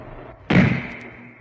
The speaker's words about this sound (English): Oh, the sniper! She's been shot!